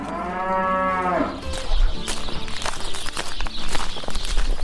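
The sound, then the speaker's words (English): Young dairy heifers, all under five months old, mooing on a Wisconsin dairy farm: one long, low moo opens, followed by shuffling, rustling steps and scattered knocks. “These are our little babies. These are all less than 4 or 5 months old. They're all heifers, so they're all female.”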